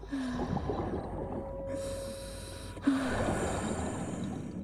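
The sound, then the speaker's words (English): Heavy breathing through an oxygen mask fed from a tank: two long, hissing breaths in quick succession over a low rumble, with faint tonal squeaks from the mask, quiet throughout. “Her eyes open and close sluggishly as she sucks in breaths.”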